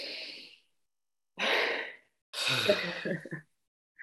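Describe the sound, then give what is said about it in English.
Deep breaths drawn in and let out during a group breathing exercise: a few soft, airy breathy bursts separated by short silences, the last one longer and rougher. “If everybody can take a deep breath.”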